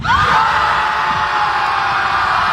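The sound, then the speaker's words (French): About 300 people scream together beside a lake, a loud, continuous, high-pitched crowd shriek that holds steady throughout. “Ça fait en sorte qu'ils se sont retrouvés au bout de quelques semaines à 300 à côté du lac à crier.”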